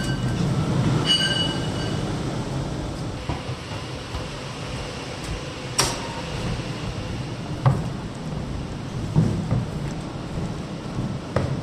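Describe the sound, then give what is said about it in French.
A cable car tensioning pulley rolls along its two rails at the Aiguille du Midi, giving a steady low rumbling grind broken by a few sharp metallic clanks and squeals. “Tu vois ce que je te disais sur la poulie qui avance et qui recule, c'est celle-là. Tu vois, elle va rouler sur ces deux rails, et ça, c'est mon gros vérin qui est là.”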